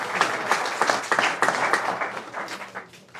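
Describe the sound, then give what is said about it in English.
An audience claps for itself at the close of an evening event, with lively, crowded applause and individual hand claps standing out. The sound gradually thins and softens toward the end. “And you indeed have been a wonderful audience. Put your hands together for yourself.”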